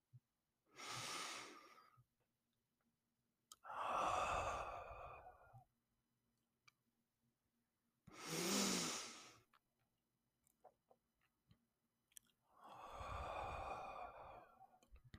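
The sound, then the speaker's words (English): Four slow, deep breaths are taken in and out during a guided relaxation exercise. Each is a long, soft, airy rush separated by quiet pauses, with no speech. “Here, we want to take a few deep breaths. This way, we are energizing the body. So let's do that together now.”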